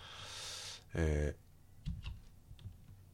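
The NVDA screen reader plays a short, loud electronic exit tone rich in harmonics after the NVDA+Q shortcut is pressed. Soft, scattered keyboard clicks come before and after it.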